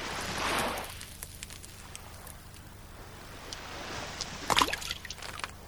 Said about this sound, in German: Siehst du das, Boris? Die kleinen Wellen, weil ich einen Stein ins Wasser geworfen habe.